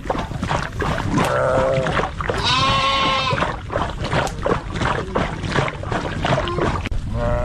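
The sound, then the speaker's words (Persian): Goats and sheep of a Kuchi nomads' herd in Afghanistan bleat, giving several loud, wavering cries over a steady noisy background. “بیشتر در این گزارش که با صدای مواشی آغاز می‌شود.”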